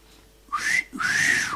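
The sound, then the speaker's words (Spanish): A two-part wolf whistle aimed at a passing woman: a short note sweeping upward, a brief gap, then a longer, louder note that rises and glides back down, clear and alone. “¿cuál será el origen del característico silbido que se emite o se emitía al pasar cerca a una mujer bonita?”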